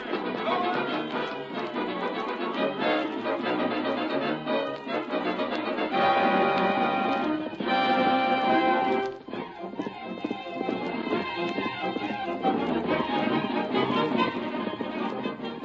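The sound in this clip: A horse gallops, its hooves drumming in a steady, rapid rhythm that continues throughout at an even, moderate loudness.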